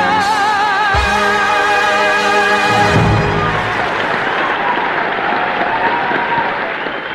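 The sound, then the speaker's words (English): A theatre audience gives a standing ovation: loud applause and crowd noise rise under a final sustained musical chord, which cuts off around three seconds, then the clapping carries on alone, fading slightly toward the end. “And just as the audience settle down after their standing ovation”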